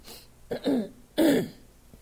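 A person clears a throat irritated by pollen, giving two short, rough, raspy bursts. The second burst is louder than the first.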